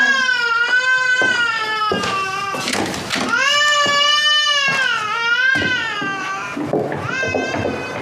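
A small child cries loudly after waking up, with long, wavering, high-pitched wails broken by brief catches of breath, repeated without pause.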